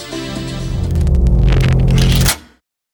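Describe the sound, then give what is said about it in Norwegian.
A Lotus car's engine in a racing video game holds a steady, loud, harmonic drone with some bursts of higher noise, then cuts off abruptly just before the end. “Da skal vi kjøre en god runde med Lotus.”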